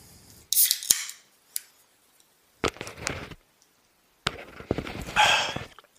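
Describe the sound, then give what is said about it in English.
Opening a soda: a few sharp clicks and snaps, each followed by bursts of bright hissing fizz, with short silences between them. “Thought about that, trying to get a soda here.”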